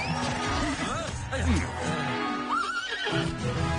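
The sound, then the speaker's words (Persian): A powerful horse neighs in wavering whinnies that rise and fall in pitch, along with people talking. “آفرین به تو، تا به حال اسبی به این قدرت ندیده بودم.”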